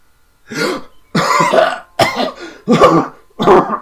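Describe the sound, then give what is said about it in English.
A man coughing and sputtering, five rough, harsh bursts in quick succession, the second drawn out longest, each separated by brief pauses. “He starts to cough and sputter before the laudanum you've given him starts to take effect again”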